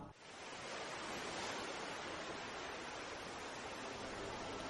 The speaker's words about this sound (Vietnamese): rì rào tiếng sóng biển vỗ vào rặng đá